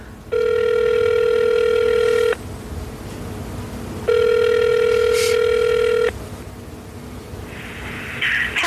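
A telephone ringback tone sounds after a call is dialed to a city mayor's office in San Jose: two long, steady, even-pitched rings of about two seconds each, separated by a pause.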